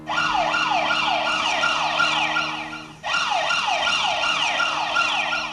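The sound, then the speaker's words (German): An earthquake warning siren in Naples, set off when small tremors exceed set levels, wails loudly in rapid, repeated up-and-down sweeps, briefly dropping out and restarting midway before continuing. “So klingt es, wenn die vielen kleinen Erdbeben, die sie in Neapel messen, bestimmte Werte übersteigen.”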